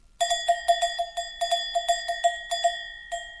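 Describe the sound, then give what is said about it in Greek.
Metallic clanking of a trogkana, a large sheep bell, struck in a rapid, irregular run of many ringing clangs with a bright, sustained tone, heard alone. “Ούτε αυτό ήταν κουδουνίστρα του δήμαρχου. Αυτό ήταν τρογκάνα.”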